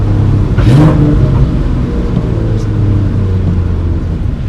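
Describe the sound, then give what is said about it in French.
Car engine revving hard through an exhaust with the catalytic converter removed, on a race circuit; a loud, continuous, raspy roar that holds steady throughout. “En termes d'échappement, on est sur quoi ? Elle est juste décatalysée. Elle est juste décatalysée, ouais.”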